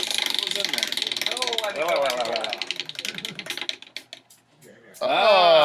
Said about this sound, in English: All right, and now we will spin a wheel.